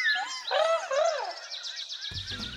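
Birds chirping while being fed flower blossoms, orange slices and sunflower seeds: bright, swooping warbles rise and fall, then give way to a rapid, fluttering trill, with a low buzzy tone entering near the end.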